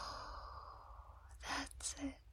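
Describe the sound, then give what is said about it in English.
A deep breath in and out during guided breathing: a long, soft, hissing inhale followed by two short, breathy puffs of exhaled air, quiet and without talk. “One, two, three, breathe in and out.”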